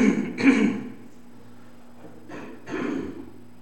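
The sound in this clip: Someone clears their throat with something stuck in it: two rough, raspy bursts separated by a short pause, with a faint low hum underneath.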